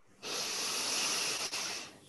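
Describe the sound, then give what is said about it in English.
A single long breath drawn in through the nose as part of a box-breathing exercise, a soft, steady airy hiss that lasts nearly two seconds and then fades. “So first you breathe in through your nose,”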